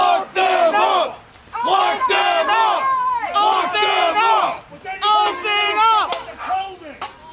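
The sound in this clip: A few dozen very vocal protesters, waving flags and signs on the front lawn of Mark Poloncarz's home, shout loud rhythmic chants in unison, with brief gaps between repeated bursts of many raised voices.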